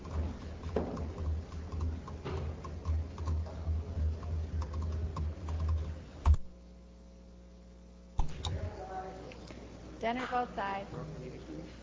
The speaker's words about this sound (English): The clerk will lock the voting machine. Members shall proceed to vote.